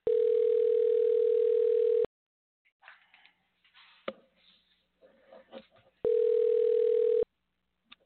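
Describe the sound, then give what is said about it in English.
A telephone dial tone heard while a call is dialled: a steady, unbroken hum cuts off, scattered soft clicks and faint handling noises follow, then the same flat tone returns briefly. “Let's give John Macko a we'll call and find out what's happening with the band today. Bear with me a second while we dial these numbers.”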